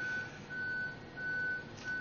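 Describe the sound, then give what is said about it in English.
A reversing lorry's warning beeper gives faint, even, mid-high beeps at a regular pace, about four in a row, over low background rumble. “there's a lorry reversing, I can hear it in my headphones.”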